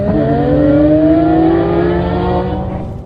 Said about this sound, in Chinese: 一辆辆赛车飞驰而出